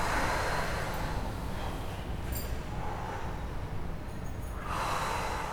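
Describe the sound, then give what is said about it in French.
Loud, breathy exhales pushed out through the mouth during a guided breathing exercise. A few rough, noisy whooshes rise above a steady hiss, with no talking. “Chaque expiration est haute pour récupérer. Expirez bruyamment. Oui, par la bouche, lâchez les amarres.”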